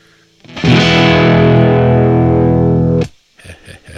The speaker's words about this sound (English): It's going to be distorted.